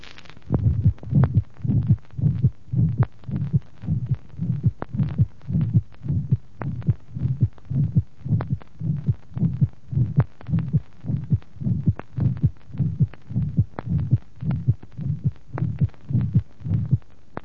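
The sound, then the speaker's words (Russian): Heartbeat with a harsh, intense systolic murmur from a high ventricular septal defect, heard at the third left intercostal space, with an accentuated second heart sound; many steady, regular beats with no voices. “которая сделана у больного с высоким дефектом межжелудочковой перегородки, третье межреберье слева, выслушивается интенсивный резкий систолический шум усиления второго тона.”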